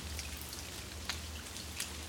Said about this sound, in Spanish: ¿Cómo se sienten las gotas de lluvia cayendo sobre tu cuerpo?